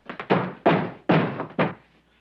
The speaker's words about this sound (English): then scrambles to the kitchen door, pounding at it.